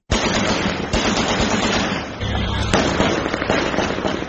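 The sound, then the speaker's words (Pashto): Celebratory gunfire and fireworks over Kabul at night: a dense, continuous crackle of shots and bursts, loud throughout, with many overlapping pops and no real pause. “تیره شپه د کابل په ګڼو سیمو کې د خوښۍ ډزې شوي او اورشیندونکي پټاقۍ هم هوا ته پورته شوي.”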